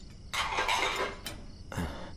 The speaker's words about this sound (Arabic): يا عمتي صحون كتار، خليني أنا غسل الباقيين